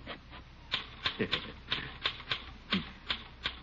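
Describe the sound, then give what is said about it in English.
A secretary types a letter on a typewriter in an office, with about ten quiet, irregular keystroke clacks. Some come in quick bursts and others are spaced by short pauses. “You poor man, you, working all alone. Here, let me type that letter for you.”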